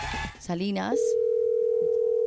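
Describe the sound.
An unanswered telephone call produces a ringing tone: a steady, even, mid-pitched tone that holds alone to the end, after a brief voice at the start.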